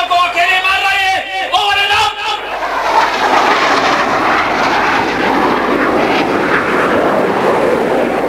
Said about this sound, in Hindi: शीघ्र ही 2 लड़ाकू विमान आए, हमला भी हुआ,